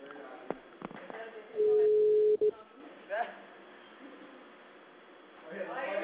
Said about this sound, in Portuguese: Eu vou ligar de novo, porque ela não está atendendo.